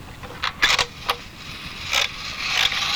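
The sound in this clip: A slot machine crank is turned and its reels spin: a few clattering mechanical bursts and ratchety clicks, with quieter whirring in between.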